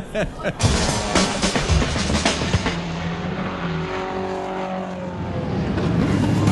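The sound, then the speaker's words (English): Race cars roar off the grid at the start of the 76th Le Mans 24 Hours. A dense, loud engine roar opens with several sharp bursts, then settles into a sustained, swelling drone. “That's the sound of all the cars lining up on the grid as they've done their first lap, and they're off. The start of the 76th running of the Le Mans 24 hours.”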